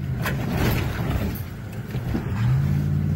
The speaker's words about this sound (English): Hit the gas! Hit the gas!